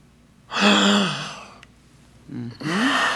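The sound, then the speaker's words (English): Deep breaths drawn during a chest examination, two voiced, sigh-like inhalations separated by a short pause. The first is long and loud, and the second is slightly shorter. “So, inhale, please. So, again.”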